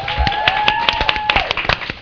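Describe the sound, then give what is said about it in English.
Scattered hand claps from an audience applauding panelists at a panel event: sharp, uneven claps with gaps between them, fairly light rather than a full ovation. “Applause, please.”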